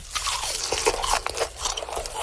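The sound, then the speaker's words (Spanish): Crispy pork skin seasoned with salt, pepper and lemon crunches sharply as it is bitten and chewed, giving a rapid series of many short, crackling bursts at moderate loudness. “cocer correctamente la piel del cerdo, salpimentando un poco y dejando el toque de limón para que quede así como un crunchy delicioso. No sé si ustedes han escuchado acá, pero suena algo así.”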